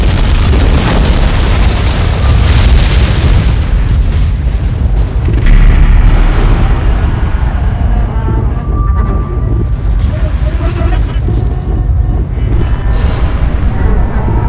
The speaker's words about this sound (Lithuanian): Didelis sprogimas sudrebina spektrometrą ir radio ryšys su mokslininkais nutrūksta sulig klyksmu.